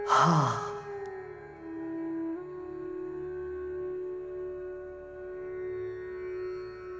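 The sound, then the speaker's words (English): A single soft breath exhaled through the mouth during a guided meditation, a short airy sigh at the start, followed by a calm, sustained musical drone. “Hold the breath and breathe out through the mouth.”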